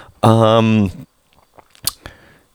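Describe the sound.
A short hum-like voiced sound, then a couple of sharp, dry crunches as someone bites into a crunchy snack.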